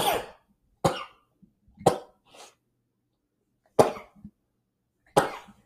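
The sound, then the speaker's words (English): A sneezing fit brought on by allergies: several sharp, explosive bursts at irregular intervals, separated by stretches of near silence and a few faint breaths. “having a sneezing fit while recording”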